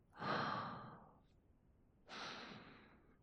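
Two deep, slow breaths, taken while savouring a scent, each a soft airy rush lasting about a second. They are separated by a short pause and are heard quietly on their own, with no talk.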